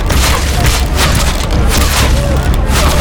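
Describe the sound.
A volley of gunshots from soldiers firing together: many loud, rapid bangs and booms crowd into one dense, continuous burst of noise.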